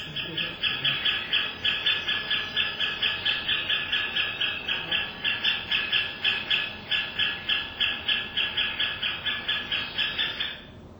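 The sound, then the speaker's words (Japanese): A great spotted woodpecker chick calls in a long, rapid, regular series of shrill, high-pitched notes, many evenly spaced calls continuing at steady loudness for about ten seconds before stopping. “これは赤ゲラのヒナです。赤ゲラもケッケッケッケッと鳴きますし、警戒するときにはケッケッケッケッケッケッケッと続けます。”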